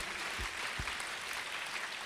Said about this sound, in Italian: battete le mani, lodate il Signore, amen, alleluia. Facciamo un applauso a Gesù, alleluia.